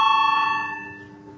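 A bell rings in a parliament chamber to call members to a vote: one bright, ringing strike with clear overtones that starts loud and slowly fades away over about a second and a half.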